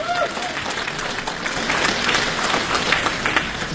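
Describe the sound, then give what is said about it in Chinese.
An audience applauds to welcome a pair of crosstalk comedians onto a comedy stage. The clapping from many hands is loud, continuous and even throughout. “掌声有请”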